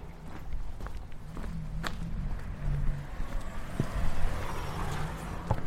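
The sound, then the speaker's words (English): Footsteps walk up Deal Street in London's East End, soft steady steps over outdoor street noise and a low, even hum. “We're now walking up Deal Street towards the next crossing.”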